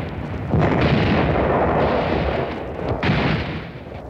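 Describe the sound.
Cannon fire from warships in a naval battle against a Confederate fleet: heavy booming blasts erupt after a brief quiet, merging into a loud sustained rumbling roar, with a fresh surge of blasts near the end.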